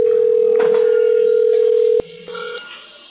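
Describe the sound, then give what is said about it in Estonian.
A steady telephone hold tone sounds at one constant pitch for about two seconds before cutting off abruptly, leaving fainter, lower line sounds afterward. “Olete helistanud Old Stressi müügiosakonna. Hetkel on kõik liinid hõivatud. Jääge palun ootele.”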